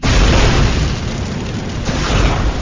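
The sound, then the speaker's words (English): A flamethrower ignites and fires a burst of flame at a target cage in a waterlogged room: a loud, dense roar that holds steady for about two and a half seconds, with no voices. “aimed the nozzle at one of the cages about 15 feet away, and pressed the red igniter button. A fine blue flame shot out of the tube beneath the nozzle. Then, Jack pulled the trigger.”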